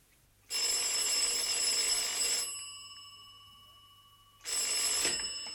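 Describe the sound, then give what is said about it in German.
A telephone bell rings in two bursts of bright, metallic jangling. The first lasts about two seconds, then a pause with a fading hum follows before the second begins. No voices are heard. “Als ich mir gerade einen Whisky genehmigen wollte, läutete das Telefon.”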